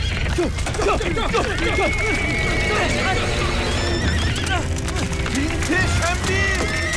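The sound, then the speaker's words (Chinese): Horses being led along a steep trail whinny repeatedly over constant hoof clatter and movement noise, loud and dense throughout, with voices mixed in. “拉住缰绳，别让马蹄失控。”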